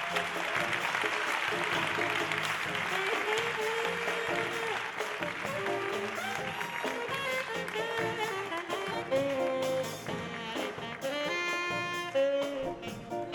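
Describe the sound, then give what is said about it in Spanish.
Applause for a saxophone teacher at a big band concert in a theatre, a dense crackle of clapping that runs throughout and mixes with sustained instrumental tones. “Un aplauso para él.”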